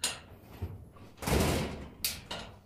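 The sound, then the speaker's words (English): An old box that sat on top of a rock for years is opened with a few soft knocks and a longer, louder scraping rustle, then a sharper knock, all fairly quiet. “let's just open this box, because I have the suspicion it's been sitting on top of that rock for 15 years.”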